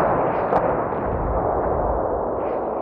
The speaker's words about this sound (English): And now they endured a blistering bombardment from 8-inch howitzers as they waited for the firing to let up.